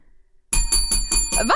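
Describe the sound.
A metal hotel desk bell is struck about five times in quick, even succession, each bright, high ding ringing over the last.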